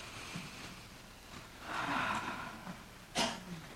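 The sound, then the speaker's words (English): A slow, deep inhaled breath taken during a guided meditation ceremony, heard as a soft, airy hiss that swells through the middle. A brief, sharper sniff-like burst follows near the end, with no talking. “So now, take in a deep breath.”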